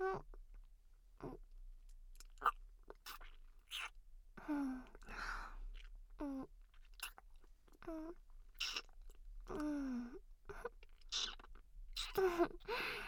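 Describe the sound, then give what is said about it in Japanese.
Wet mouth clicks, smacks and chewing noises from pretend eating, many small irregular bursts at a soft level, mixed with breathy voiced murmurs between them. “それじゃあ いただきまーす。あーん、”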